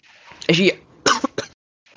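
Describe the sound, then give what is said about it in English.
A person coughs after choking on water: a few loud, harsh coughing bursts with short gaps between them, then a faint breath at the end. “I just choked on some water there.”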